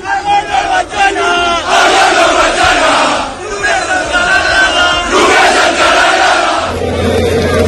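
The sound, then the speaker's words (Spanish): A large crowd of football fans celebrating a league title chants and roars loudly and continuously, their massed voices rising and falling in rhythmic chants. “Esos eran sonidos de la fiesta de anoche”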